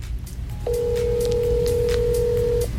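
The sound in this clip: Telephone ringing on an outgoing call: one steady, mid-pitched electronic tone holds for about two seconds over a low background rumble, then cuts off.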